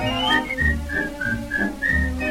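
A person whistles a cheerful tune in clear, bright notes, moving through several short, steady tones in a bouncy rhythm, with no voices alongside.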